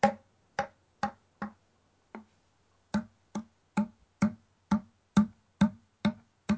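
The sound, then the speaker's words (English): Fourteen hollow, percussive thumps come from the end of a grunt tube elk call being tapped against a palm, mostly evenly spaced with a short gap after the fifth. “I'm pointing all of my fingers straight out in a fairly rigid position, and then I'm tapping the end of the call in the palm of my hand and getting a sound like this.”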